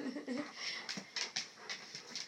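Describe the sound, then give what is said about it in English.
A puppy pants in quick, rhythmic bursts of breathy huffs that are short and soft, repeating steadily with small whimpering tones mixed in. “And he's a panting puppy this morning. With a wagging tail.”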